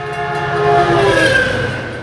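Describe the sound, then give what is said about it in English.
A massive silver commuter train hurtles through a railroad crossing with a loud, continuous roar and rumble, and a sustained horn blares over it throughout. “They watch as the massive silver commuter train bears down and then hurtles through the crossing.”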